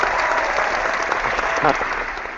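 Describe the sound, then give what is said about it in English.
Studio audience applause from a live crowd, a dense, steady wash of many hands clapping that carries through the whole moment at even loudness, with a voice briefly heard over it. “We'll give you a round of applause, too.”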